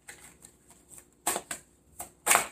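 Tarot cards being shuffled and drawn: a few soft papery flicks, then several louder brushing bursts of card against card, with no talk.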